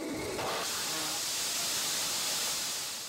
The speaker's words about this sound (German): Hier will das Deutsche Zentrum für Luft- und Raumfahrt einen neuen Raketenantrieb testen. Dazu wird Ethanol in die Brennkammer gesprüht. Wird der Alkohol zünden?